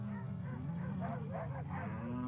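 Cattle lowing as a herd is gathered on a Florida pasture with cattle dogs and riders: overlapping low moos blend into a fairly quiet, continuous wash over a steady background rumble.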